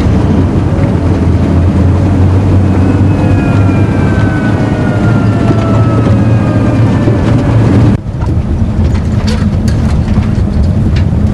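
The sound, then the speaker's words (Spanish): A truck drives along a dirt road, giving a steady low engine rumble with dense, rough road noise throughout. The sound briefly dips and changes character partway through, then continues as a slightly thinner drone. “conduce el camión por un camino de tierra y después pasan a una estrecha carretera asfaltada”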